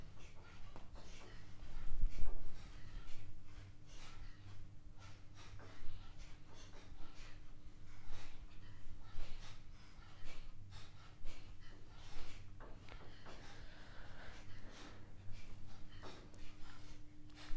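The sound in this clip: Rapid, forceful breaths of a fire-breath exercise at a breathing workshop in Sweden. Many sharp bursts come in an uneven rhythm over a steady low hum.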